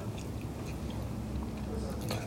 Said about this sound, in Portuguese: E eu estou reforçando aqui comendo o meu sanduíche com queijo prato.